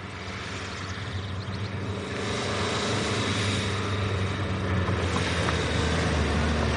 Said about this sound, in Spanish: El coche en el que viaja circula por un camino de tierra y se detiene frente a una hermosa casa de piedra